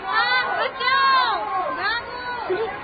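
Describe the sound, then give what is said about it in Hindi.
A noisy crowd of people running during a riot: loud, overlapping agitated voices yell and call with swooping, rising and falling pitch, a continuous hubbub from start to end. “सुनिए सुनिए, शोर भी तो इधर ही आ रहा है और लोग भागते हुए भी आ रहे हैं।”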